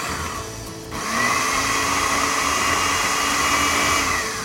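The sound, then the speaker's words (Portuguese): A food processor whirs as it blends cooked beans into a paste. The steady, loud motor whine dips briefly, then surges to a stronger, even run. “para reagregar tudo que eu tô processando e vamos processar mais um pouquinho.”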